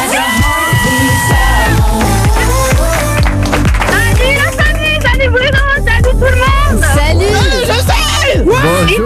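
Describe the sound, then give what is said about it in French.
Crowd cheers and whoops greeting a caller to a radio morning quiz game, loud and layered over bright, pitched musical tones for the whole stretch. “Applaudissements pour Justine.”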